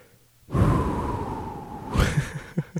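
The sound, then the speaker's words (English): A deep breath is taken alone: a long, airy inhale holds steady for about a second and a half, then gives way to a few shorter, softer puffs. “Let me take a breath.”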